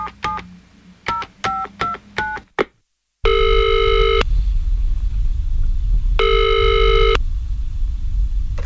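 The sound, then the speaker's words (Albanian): Keypad tones dial a pastor's phone number in a quick series of about seven short beeps. After a brief silence comes a ringback tone that sounds twice as long, steady purrs over a faint line hiss. “Po marr pastorin tim në telefon që ta pyesësh edhe atë.”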